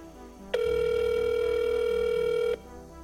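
A telephone rings once: a steady buzzing tone that starts and stops abruptly, lasting about two seconds, over a faint low background.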